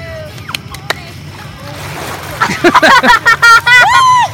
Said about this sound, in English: I got to be able to hear you, so you got to really jump and really splash.